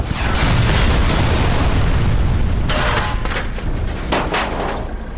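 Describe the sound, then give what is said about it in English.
RPG rocket explosion as the round strikes near a Hummer: a loud, sustained roaring boom with heavy low rumble filling the whole stretch, without a break or fade. “he pulled the trigger, sending the rocket to the Hummer down below. Oh shit! RPG! Get down!”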